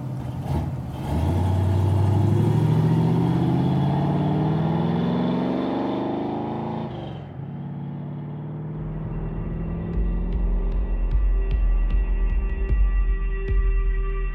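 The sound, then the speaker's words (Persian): A car engine driven fast along a street, its drone climbing steadily in pitch for several seconds, then breaking off abruptly into a lower, steadier rumble. “خیلی با سرعت دارم میرونم”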